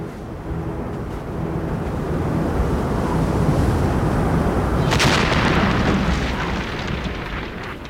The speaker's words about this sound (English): Two sticks of dynamite ought to do it, don't you think?